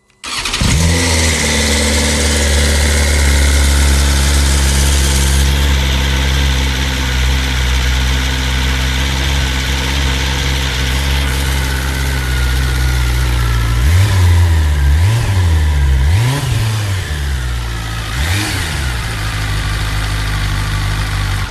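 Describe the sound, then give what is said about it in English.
A four-cylinder S1000RR superbike engine fires up and settles into a loud, steady idle. Later it is blipped several times in quick succession, each rev rising sharply and dropping back before it returns to idle. “Four cylinders, incredible power and precision, and a bike to own the racetrack on. That'll be the awe-inspiring S1000RR then.”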